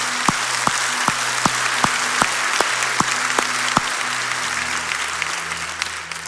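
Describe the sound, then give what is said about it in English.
A church audience breaks into steady, full applause, dense clapping with a regular pulse of sharper hits, while low held tones sound underneath. “Come on, church, let's give it up for all those who prayed that.”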